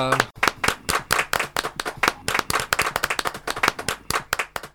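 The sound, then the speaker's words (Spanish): Applause in a radio studio: a quick, uneven run of many crisp, distinct hand claps from a small group, loud and percussive, after a brief voice at the start. “Un aplauso por acá.”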